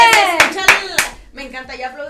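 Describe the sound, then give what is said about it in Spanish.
Rhythmic hand clapping by a few people: four sharp, evenly spaced claps ring out in the first second, then softer claps continue while voices call out alongside. “Me encanta, ya aplaudimos como señores.”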